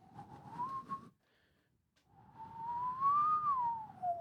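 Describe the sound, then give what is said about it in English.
A person whistles in imitation of someone's furtive whistling: a wavering tone, a short silence, then a longer whistled phrase that rises and falls, with soft breathy noise underneath. “You also hear him kind of trying to whistle. It sounds sort of like,”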